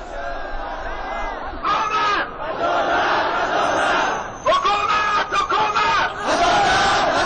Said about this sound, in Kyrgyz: Колдоруна өкмөткө каршы ар кандай жазууларды көтөрүп алган миңдеген хазарлар бүгүн Кабулдун көчөлөрүндө адилеттик, адилеттик, бизге адилеттик керек деп кыйкырып жүрүштү.